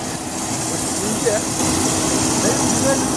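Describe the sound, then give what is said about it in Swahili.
Steady, loud engine drone of an aircraft at Goma airport as the last contingent of Kenyan soldiers boards a special flight home. The roar holds constant while a voice talks over it. “Kwenye uwanja wa ndege wa Goma, wanajeshi wa kikosi cha mwisho kinachoundwa na wanajeshi kutoka Kenya wanaabiri ndege maalum kurudi nyumbani.”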